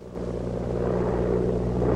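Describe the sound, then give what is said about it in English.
A plane cruising low over rocks and down into a canyon gives off a steady, droning engine hum with a low harmonic buzz that swells slightly at the start and then holds constant. “The plane cruises over some rocks and down into a canyon.”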